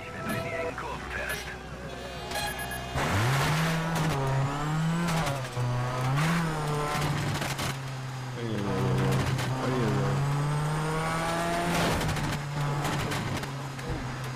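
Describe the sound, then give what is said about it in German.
Rally car engine in a racing video game demo on Xbox 360, revving loudly with a pitch that repeatedly climbs and dips as the car is driven over a mountain course, continuous for most of the stretch. “So, ihr hört es vielleicht. Wir versuchen hier gerade mal heil über den Berg zu kommen. Mit der Demo-Version von Colin McRae Dirt für die Xbox 360”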